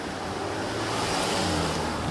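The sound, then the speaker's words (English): A car passes by on a road, a steady broad rush of tires and engine that swells slightly midway. “The car that passed is, thinks you're sus.”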